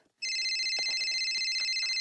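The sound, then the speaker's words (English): A phone rings with a steady, high electronic trill. It starts abruptly and keeps going at an even, fairly loud level for about two seconds. “I think your phone is ringing. What? Your phone.”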